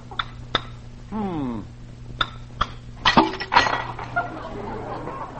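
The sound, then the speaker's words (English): Egg being cracked on the side of a cup, heard as several sharp clinking taps and a crackling break, with a brief voice in between. “I'll crack this egg on the side of a cup here.”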